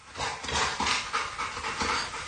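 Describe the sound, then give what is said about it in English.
Panting from a frightened black Labrador: many rapid, breathy pants in a steady rhythm, moderately loud throughout with no talking. “It was crashed by an adorable black Labrador. It was awesome. It was a dog, and she was terrified, by the way. Yeah. Really? We have some audio of her reacting.”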